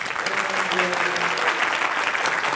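Steady, dense applause welcoming a guest who has just been introduced, a continuous wash of clapping that stays at an even loudness throughout.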